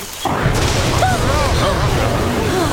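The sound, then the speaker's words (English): A sudden, loud crash of thunder from a nearby lightning strike in a tropical rainforest bursts in after a brief quiet moment, then rolls on as a dense, steady roar without fading. “That sounded close. It certainly did. Fire! It must have been the lightning.”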